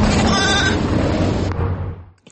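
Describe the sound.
Sheep bleating: sacrificial sheep during Eid al-Adha by a busy Baku highway with fast-moving cars. A wavering bleat rises early over dense rushing noise, which then fades away.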